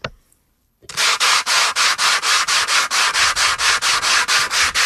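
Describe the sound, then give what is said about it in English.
Sanding with 220 grit sandpaper: many fast, even back-and-forth strokes, each a loud gritty rasp, repeating in a steady rhythm without pause. “Grab that sandpaper and just do it.”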